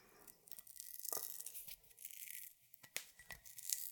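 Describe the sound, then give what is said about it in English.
Pull-tab strip tearing through the wax seal on a bottle: a faint series of short crackling rips and scrapes spread over a few seconds, with quiet gaps between the bursts and no voices. “The pull tab should cleanly cut it so that it will stay on the bottle while it's open.”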